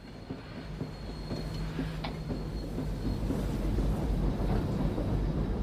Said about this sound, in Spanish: Te escribo desde el tren que nos lleva al frente.